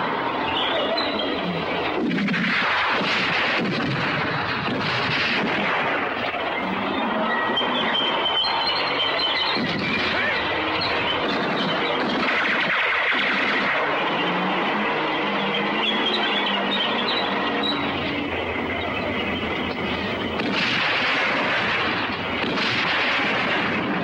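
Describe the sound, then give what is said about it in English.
Artillery and tank gunfire roll through a desert battle between German panzers and Allied tanks. A heavy, continuous thundering rumble runs throughout, with repeated booms and several louder bursts rising out of the din. “The battle in the desert rages on between the German panzers and the Allied army tanks.”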